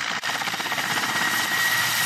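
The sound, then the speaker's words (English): An Mi-8 medium twin-turbine military helicopter, armed with unguided missiles and flying for Ukraine, gives off a steady, dense turbine roar and rotor whine that holds level throughout, with a brief dip near the start and no voices. “In their battle against Russia, Ukrainians are using the Mi-8, a medium twin-turbine helicopter equipped with unguided missiles.”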